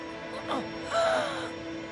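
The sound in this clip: A woman gasps for air: two short, strained, breathy intakes, the second longer with a thin vocal whine, heard faintly over a quiet background.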